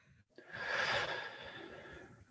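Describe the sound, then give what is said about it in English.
A single deep breath taken during a guided breathing exercise: a long, steady airy rush that swells quickly, peaks early, then eases gradually. It stands alone, with no talking. “One more breath.”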